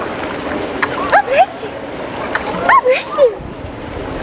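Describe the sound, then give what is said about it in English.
Water splashing during a first swim, with short, high, squeaky cries in the middle and brief bursts of churning splashes. “Oh, yeah. It's your first swim, buddy.”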